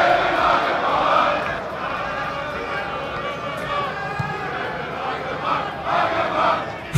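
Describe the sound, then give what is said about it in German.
A football stadium crowd at Wuppertaler SV's Stadion am Zoo sings a player's name. The loud, sustained mass voices blend into a continuous choral roar with a few swells in volume. “Stark, ne? Das ganze Stadion singt seinen Namen.”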